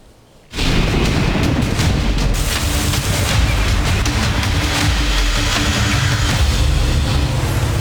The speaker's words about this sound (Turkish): İşte mega kentten o sağanak manzaraları.